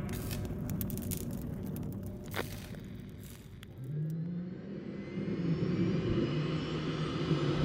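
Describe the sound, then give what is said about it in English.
Gunship engines power up for takeoff from a bare landing field: a broad, rushing engine roar swells, then a droning tone climbs steadily in pitch as the noise grows louder toward the end. “The gunship powers up from a bare landing field on the surface, several kilometers outside Numinous City.”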